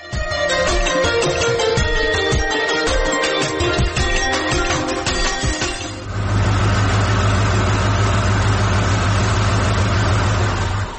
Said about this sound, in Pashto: چې موټر راغې